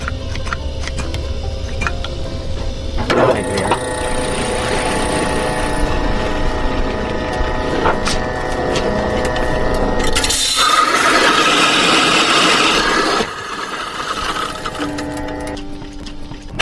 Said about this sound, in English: You have to oil this grinder occasionally. You gotta take care of your equipment or you'll be out of business pretty soon. Don't need but a couple of drops in it.